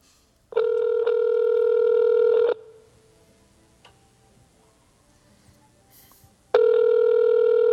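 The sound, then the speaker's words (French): A telephone rings twice, each ring a steady electronic tone lasting about two seconds, separated by a long quiet gap with faint clicks. “On entend un petit peu le téléphone en arrière.”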